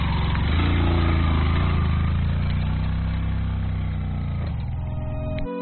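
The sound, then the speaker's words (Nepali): A motorcycle engine labours uphill with two riders aboard, struggling to pull the slope: a loud, continuous low drone with steady harmonics and no talking, ending abruptly. “समथलमा सहजै उक्लिन्छ motorcycle, उकालोमा तान्दै तान्दैन, एकजना ओर्लिनुपर्छ, एकजनालाई मात्रै चाहिँ लान्छ मोटरसाइकलले, तान्दैन हो तान्दैन।”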